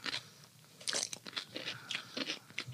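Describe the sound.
Biting into a cucumber with mustard: a run of crisp, fairly quiet crunches and snaps in an irregular chewing rhythm, with no talk.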